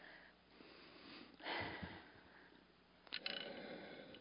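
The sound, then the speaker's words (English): Breath is drawn in through a spirometer, a bedside hospital device for practising deep inhalation. Two faint, airy, rushing draws of air are heard, soft and breathy, with no talk during them. “This here is called a spirometer, and it literally measures your volume of inspiration, and you don't blow into it, you inhale it like this.”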